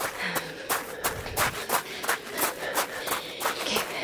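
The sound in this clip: Running footsteps pound at a quick, steady pace: many sharp, scuffing impacts repeat over a rough, noisy background.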